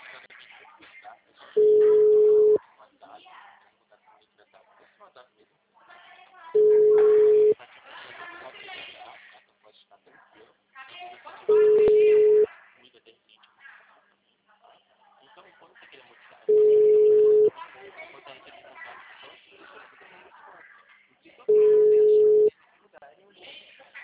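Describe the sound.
A telephone busy signal sounds after a dropped call: five evenly spaced single beeps at a steady mid pitch, about five seconds apart, with faint voices and rustling in the gaps between them.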